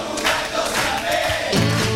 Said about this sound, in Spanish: Mira cómo canta el público.